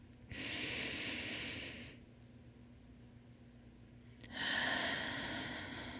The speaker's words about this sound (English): when you take that big breath, breathe in through your nose and out through your mouth